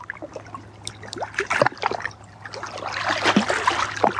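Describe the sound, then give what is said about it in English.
Small waves meet ancient rock in soft, irregular splashes and trickling water, faint at first and swelling slightly toward the end. “Just like the sound of these little waves meeting the ancient rock here.”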